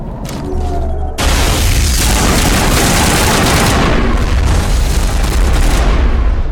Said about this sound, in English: So this is when we bring out the assault rifle.